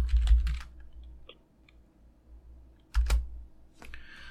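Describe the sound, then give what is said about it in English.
Keystrokes on a computer keyboard during an online book search: short bursts of crisp clicking separated by a quieter pause, over a low steady hum. “So if I go to Amazon and I type in, and I go to books, let's see, books, and I type in identity.”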